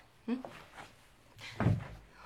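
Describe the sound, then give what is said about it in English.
A chair is rearranged: two dull, low knocks about a second apart, fairly quiet, with faint scuffing between them. “Make me happy by allowing me to rearrange this chair for you.”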